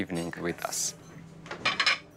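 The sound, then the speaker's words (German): Plates and cutlery clink as a table is laid with special plates and napkins for an elegant evening dinner for guests. Bright clatters and a few ringing knocks come in quick bursts. “Wir decken besonders schön ein. Spezielle Teller, elegante Servietten, guter Wein.”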